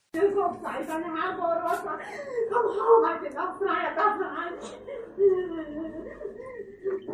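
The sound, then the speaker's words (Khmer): A journalist cries loudly in a broadcast newsroom after the outlet was ordered off the air, sobbing and whimpering through tearful, broken speech that holds at a steady, strained level the whole way. “នៅក្នុងបន្ទប់ផ្សាយ VOD នៅថ្ងៃច័ន្ទនេះអ្នកសារព័ត៌មានម្នាក់បានត្រហោយំ”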